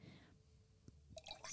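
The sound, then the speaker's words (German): Rosé wine being poured from a bottle into glasses, a faint, brief liquid trickle with a few soft drips and gurgles near the end. “ich habe einen wunderschönen Rosé von Schmitz Kinder, den schenken wir jetzt kurz mal ein.”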